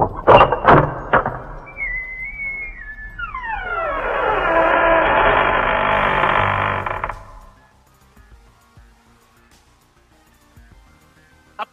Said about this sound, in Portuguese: Então eu vou, eu vou para perto da porta, seguro a maçaneta, olho para eles, aceno com a cabeça e abro devagar, com a folha na minha mão.